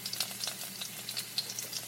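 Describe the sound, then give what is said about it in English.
Oil sizzles in a pan, a continuous faint crackling hiss scattered with many tiny pops and spits, heard alone without talk. “Oh, I hear oil.”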